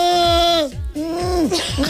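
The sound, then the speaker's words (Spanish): A person imitates a goat bleating while warming up the voice before singing, giving a few wavering, falling-pitch bleats that are loud and strained. “Sí, que parezco una cabra huérfana”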